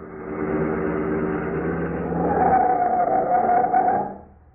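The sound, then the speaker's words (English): A big truck's engine roars at sixty miles an hour through a crossroad, a steady, droning hum that grows louder midway and then dies away quickly near the end, with no talking. “we're coming to a crossroad, and on my left is a big truck coming at me 60 miles an hour.”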